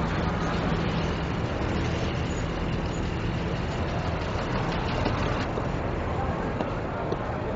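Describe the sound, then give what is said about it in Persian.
A car engine runs during parking, giving a steady low rumble that stays continuous and unchanging in loudness throughout. “ماشین رو پارک میکنه.”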